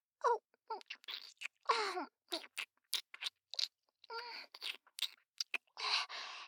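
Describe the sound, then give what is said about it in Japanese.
Someone eagerly licks up something sweet and melting, a quick run of many short, wet smacks and slurps with tiny gaps between them. “うまい。なんだこれ、血よりうまいかもしれない。甘くてとろけるような。全部舐めるぞ。”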